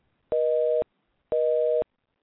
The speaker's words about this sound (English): I got a dial tone on here.